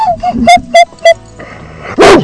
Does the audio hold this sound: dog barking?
yes